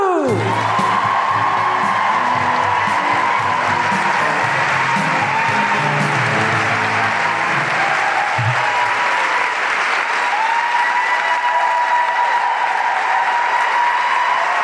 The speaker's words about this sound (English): So put your hands together and make incredible Melbourne guilty feminist welcoming riotous orgiastic noises for the incredible Amao Leota.